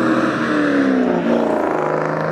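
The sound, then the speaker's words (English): Cars racing past on a street at night, a loud, continuous engine roar with a whirring tone that slides downward in pitch as the vehicles rush by. “They think they're in a race right now. Yeah, you know, that's what happens at night when you wait for the bus. You know, you see cars deciding to race off and pretend they're in a race or something like that.”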